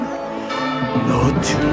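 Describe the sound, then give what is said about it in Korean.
Cathedral bells of Notre Dame ringing in a loud, continuous wash of overlapping, sustained metallic tones. “노틀담 종소리 들어봐 얼마나 아름다운 소리냐 5만 가지 색깔과 감정이 들어있는 것 같지 않아?”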